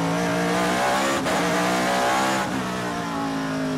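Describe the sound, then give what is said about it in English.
Camaro race cars with sequential shifters lapping the track at Laguna Seca: a loud, continuous, harmonic engine roar, broken twice by brief dips that sound like quick gear shifts, with no talking. “Mustangs, some Camaros in there. They'll bring it around. It's a sequential shifter. You just keep pulling the shifter back.”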